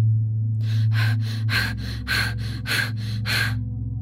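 A person imitates a sick pet bird's labored breathing with eight raspy, breathy gasps in a steady, rapid rhythm, heard over a low continuous hum.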